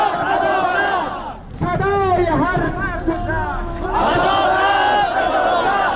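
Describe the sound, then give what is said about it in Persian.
Hundreds of Sadat protesters in Bamiyan province, Afghanistan, chant slogans at a peaceful demonstration, loud massed voices shouting repeated phrases, broken by one short pause before the chanting resumes. “بشنوید که با صدای معترضان آغاز می شود”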